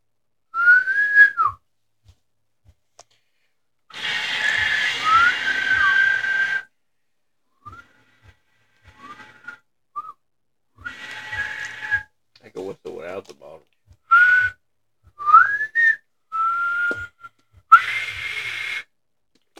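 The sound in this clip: A person whistles a string of short, bright phrases with sliding notes that bend up and down. Quiet gaps separate the phrases, and a few broader noisy bursts are scattered among them.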